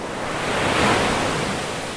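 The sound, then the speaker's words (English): Ocean waves break along the rough surf of the beaches at Duck, North Carolina, a dense, loud, continuous hiss and roar of water that swells slightly in the middle, with no voices. “The ocean along Duck's beaches is notoriously angry.”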